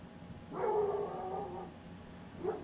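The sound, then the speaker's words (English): A dog outside lets out a drawn, whining bark-howl, followed after a pause by a short yip, both fairly faint over a quiet background. “somebody pissed off the dog outside. He's not even our dog.”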